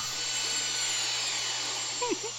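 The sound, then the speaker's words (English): Sci-fi land speeder landing sound effect: a steady, whirring engine-like drone with a thin high whine that holds level throughout, and a short chirping flutter near the end. “That was a land speeder. That was not a starship that second time. That's the landing sound.”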